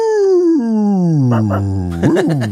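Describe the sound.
Werewolf-style howls close out a rock song. A long, loud, harmonic cry slides steadily downward in pitch, and a shorter wavering howl that rises and falls follows it.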